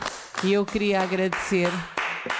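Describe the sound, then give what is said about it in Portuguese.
Applause for a guest speaker: clapping from a group of listeners, mixed with voices calling out over it, fairly loud, with a brief lull near the end before it picks up again. “Bem, então eu ia só propor uma grande salva de palmas para a nossa convidada.”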